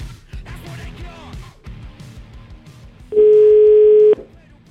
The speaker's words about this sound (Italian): Io farei una telefonatina a questi signori del CARC